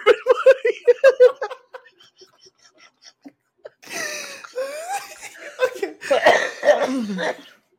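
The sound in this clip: Coughing comes in a quick series of short bursts, mixed with laughter, followed by people talking and laughing.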